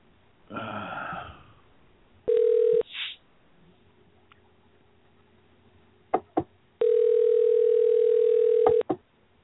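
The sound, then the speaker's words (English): Ringback tone of a telephone on an outgoing call: a steady electronic tone sounds twice, first briefly and then for about two seconds, with a few sharp clicks between the tones. “Let's see if Woody will answer his phone number.”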